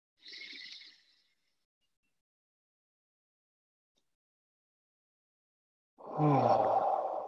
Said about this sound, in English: We'll take a nice deep inhalation through the nose into the heart space.